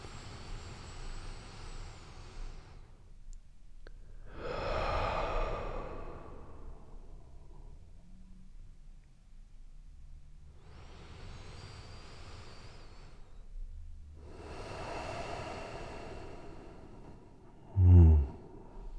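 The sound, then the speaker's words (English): Slow deep breaths, drawn in and let out as four long airy rushes separated by quiet pauses, followed by a brief low thump at the very end. “So, what does a deep breath actually feel like?”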